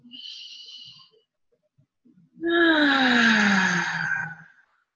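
A deep breath during a guided breathing exercise: a soft, airy inhale, a short pause, then a long voiced exhale that sighs and falls in pitch before fading.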